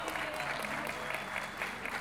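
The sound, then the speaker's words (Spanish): Audience applause at a payador folk-poetry event, a faint, steady patter of clapping hands that keeps an even level from start to finish. “Un aplauso para Ceci.”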